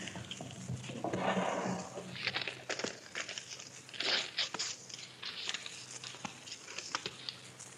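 Paper crinkles and rustles as a sealed envelope is opened, in uneven bursts of crackling and crumpling with short pauses between them, fairly quiet throughout.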